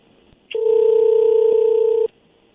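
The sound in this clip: A telephone tone sounds as a call is dialed and connected: a single steady, mid-pitched electronic tone lasts about a second and a half, then cuts off.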